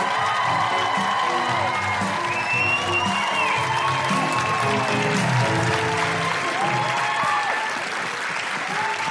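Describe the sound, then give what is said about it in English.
A live audience in Canberra applauding warmly for a guest, with a steady wash of clapping and scattered high whoops and cheers rising over it throughout. “Please put your hands together and make incredible Canberra guilty feminist woohooing noises for the wonderful Belinda Kendall!”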